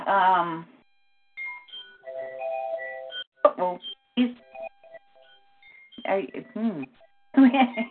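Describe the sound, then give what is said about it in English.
Alarms going off: a series of high electronic beeps and tonal chimes sounds in an irregular sequence between stretches of a person talking. “Hold on a minute. Okay. I got alarms going off all over the place.”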